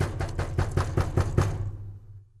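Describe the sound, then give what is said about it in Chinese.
Hard, angry knocking on a door: a rapid, even run of many loud thuds lasting over a second, then quickly fading away. “它气呼呼地跑到兔子家，用力地敲门。”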